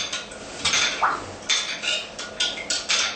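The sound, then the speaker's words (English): A spoon clinks against a bowl as a half teaspoon of Vietnamese chili sauce (sriracha) is stirred into a dipping sauce. Many quick, bright clinks and scrapes come in an uneven rhythm, with no talking. “You squeeze maybe half a teaspoon into your sauce, right? And mix it again.”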